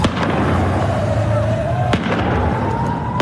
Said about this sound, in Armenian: Այս տեսագրության մեջ տեսնում ենք, թե ինչպես են բնակելի շենքերից մեկի կտուրին դիրքավորված իրանցի ուժայինները կրակ բացում բողոքի ցույցի մասնակիցների ուղությամբ։